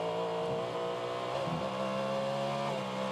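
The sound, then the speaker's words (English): Sports-car engine during a practice session on a wet racetrack in heavy rain, braking and downshifting. Its tone shifts and steps under a steady, loud hiss of rain. “Listen to the braking and the downshifts.”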